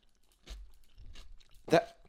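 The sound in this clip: Someone chews and crunches a cucumber salad with onion, making a few moist, crisp bites with soft chewing between them. The last crunch is the loudest.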